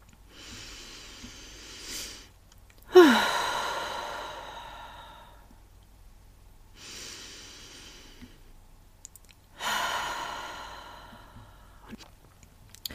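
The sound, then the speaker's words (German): Slow, deliberate breathing during a relaxation exercise, with two full cycles. Each is a soft inhale followed by a longer, louder, airy exhale that fades gradually, separated by quiet pauses and with no talk. “Die erste Übung ist also ganz bewusst einfach nur einatmen und wieder ausatmen.”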